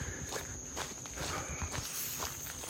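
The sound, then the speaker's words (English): Footsteps crunch along a hiking trail on an August morning walk, many steady, evenly paced steps at a faint level. A thin, constant high whine runs underneath. “Now, on with our walk.”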